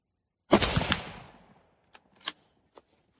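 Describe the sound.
.30-06 rifle round fired at a 2-inch by 2-inch steel plate 100 yards away: one loud, sharp crack with a decaying tail, followed by a few faint short knocks.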